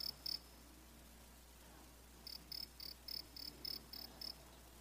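Cricket chirping, a male rubbing his wings together: a brief pair of high bursts, a pause, then a regular run of about eight evenly spaced shrill chirps, fairly faint against quiet background noise.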